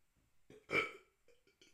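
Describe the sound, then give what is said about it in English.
A person burps once: a short, soft belch that rises and fades quickly, with a few faint small sounds around it. “I got a burp.”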